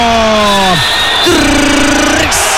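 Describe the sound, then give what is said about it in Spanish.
A basketball crowd at the Casa del Deporte roars in a steady, loud din with whoops and shouts, running beneath an excited voice talking over it. “se vuelve loco el público acá en la Casa del Deporte”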